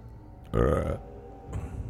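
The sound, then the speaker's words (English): A single loud, low, throaty burp lasts about half a second and then drops to a quiet background. “I feel like you should say, "Excuse me for burping."”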